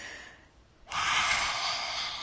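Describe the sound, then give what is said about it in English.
A deep, heavy breath taken by a man: a loud, rushing breath swells in suddenly after a softer, fainter stretch and holds steady to the end, with no talk. “He took two deep breaths,”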